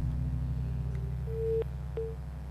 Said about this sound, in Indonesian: Baik, nampaknya terputus.